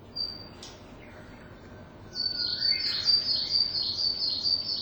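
Call of a tit species, likely a coal tit: one brief thin whistle, then from about two seconds on a run of high, thin repeated chirping notes that is louder and steady to the end.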